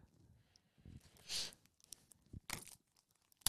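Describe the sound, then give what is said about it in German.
Plastic foil wrapping being torn off a music CD: faint, sporadic crinkling broken by two stronger ripping bursts and a final sharp snap. “Und es lässt sich nicht öffnen. Hier, das kannst du ausdenken. Stell dir mal vor, die Leute wollen die Musik hören, kriegen aber die Folie nicht ab”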